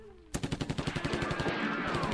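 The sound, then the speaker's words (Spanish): Shotgun fire sound effect in a Spanish-language drama, a sudden loud burst of many rapid, evenly spaced shots that blur into a dense crackling roar toward the end. “Y enseguida saqué yo mi escopeta, compañera vieja, Y ahí nomás se armó.”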